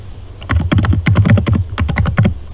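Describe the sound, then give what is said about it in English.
Rapid clicking of computer keyboard keys as a short chat message is typed, with many quick, uneven keystrokes in a brisk, loud burst. “So this has opened a dialogue with an edit for me to type my message.”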